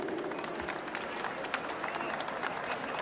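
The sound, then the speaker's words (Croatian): Audience applause at an agricultural fair, a fairly faint, even patter of many hands clapping that continues for about three seconds. “Molim vas jedan aplauz za ove divne ljude.”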